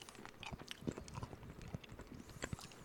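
Crunchy chewing of a cranberry-flavoured snack, with many quiet, irregular crisp bites and mouth noises over a few seconds and no talking.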